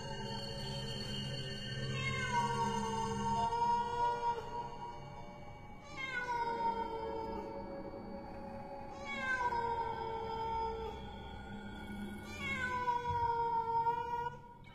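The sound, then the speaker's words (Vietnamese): Mournful cat meowing: four long, drawn-out wails, each one sliding downward in pitch and trailing off, with a faint low hum running underneath. “tiếng con mèo kêu lên”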